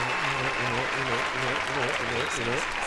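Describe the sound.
Applause offered as a shout-out, a steady wash of clapping that stays even throughout, with voices sounding over it.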